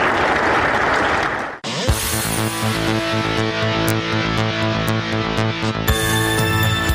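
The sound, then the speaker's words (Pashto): Applause greets young people's and children's sports demonstrations as a dense, steady clatter for under two seconds, then gives way abruptly to sustained music. “په اخیر کې ځوانانو او تنکیو ماشومانو د ورزش په برخه کې خپل نمایشات هم وړاندې کړل چې په چکچکو بدرګه کېدل.”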